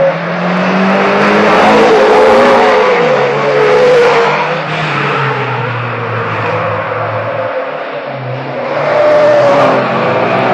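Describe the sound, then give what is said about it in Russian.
Rally cars race through snow in the dark during the Monte Carlo rally. Engines roar loudly and continuously, their pitch rising and falling as they rev. “Одна за другой машины участников гонки, крутясь, мчатся в темноте сквозь снег.”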